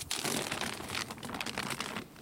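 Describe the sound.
Plastic foil crinkles and crackles as it is torn off the top of a beehive, a dense, steady stream of loud rustling without pauses and with no talk.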